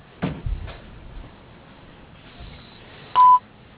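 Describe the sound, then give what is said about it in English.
A voicemail beep tone sounds once, short, loud and steady in pitch, near the end, after a few soft clicks. “Please leave a message at the tone.”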